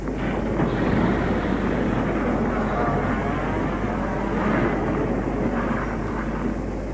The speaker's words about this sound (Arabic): والتاكسي اهو. تاكسي.